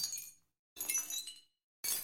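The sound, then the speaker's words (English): Three bursts of glass-crash sound have their sharp initial impact removed, leaving only the tinkling, scattering tail of shards, like glass being swept. Each quiet burst fades out before the next, and the last one is cut short. “here's our crash sounds again, but I just took the front off them, the attack of the sound, as it's called. Took the loud bit off the top,”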